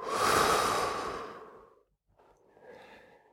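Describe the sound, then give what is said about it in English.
A deep breath drawn in and let out during a guided grounding exercise: two long, airy breath sounds. The first is louder and lasts nearly two seconds, and a softer, shorter one follows after a brief pause. “Take one more deep breath in. Hold it for a second, and then let it out.”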